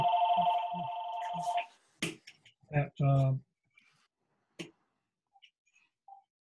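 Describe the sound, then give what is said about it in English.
A telephone rings with a steady, bright electronic trill for over a second, then stops and speech follows. “Sorry about the phone. Were excluded because of the competition from the existing. They're persistent.”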